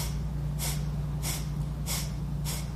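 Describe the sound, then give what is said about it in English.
Sharp exhalations through the nostrils during a breathing exercise, four quick, evenly spaced whooshes drawing the belly in. They sound fairly soft against a steady low hum. “in and out through the nostrils, sharp exhalation, drawing the belly button in, and then automatically your lungs just fill back up. So intentional sharp exhale,”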